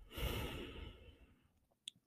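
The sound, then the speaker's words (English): One slow, deep breath is released in a long, airy exhale. It is strongest at the start and fades steadily over about a second and a half into near quiet. “important to just breathe it into my heart space and exhale”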